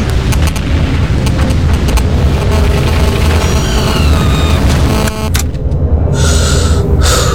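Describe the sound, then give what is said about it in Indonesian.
Whistle of a dropped 500-kilo bomb over a dense, loud booming roar, with a faint falling whistle partway through before the sound turns harsher and brighter. “Dengar suara siulan itu. Kalau kamu mendengarnya, lari! Mereka menjatuhkan si hitam bom seberat 500 kilo tepat di koordinat.”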